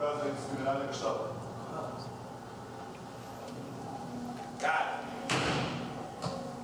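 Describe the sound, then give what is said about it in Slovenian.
Dull thumps of a man's hand slamming down on a table in an authoritarian gesture, a few sharp strikes standing out near the end over a low, murky background. “Ašenbach pa je še avtoritarno z roko udaril po mizi, da je podaril svojo nadvlado.”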